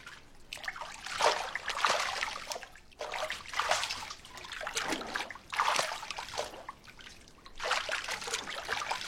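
Water splashing in a bathtub as someone scoops it onto their face with their hands, in four soft trickling, dripping swells with brief pauses between, quiet and alone.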